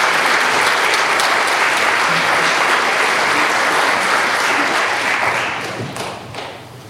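An audience applauds at a baptism to welcome a newly baptized member. The clapping is loud and dense and sustained, then eases off toward the end.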